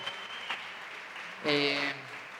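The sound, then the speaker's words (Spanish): Applause from an audience, a steady, moderately loud wash of clapping heard with a voice over it, briefly swelling louder near the middle. “A Cami, un aplauso a Cami, por favor”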